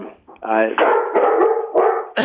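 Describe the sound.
A pet dog barks and yips in several quick, drawn-out tonal bursts that run almost back to back, loud and strained throughout.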